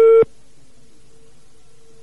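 Telephone line tone while calling a landline: a brief loud harmonic burst, then a steady, faint, even tone that hums on alone.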